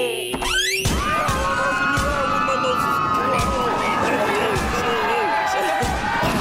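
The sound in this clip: A door being opened with a sharp bang near the start, then a busy stretch of voices and crowd-like commotion that runs on steadily behind it.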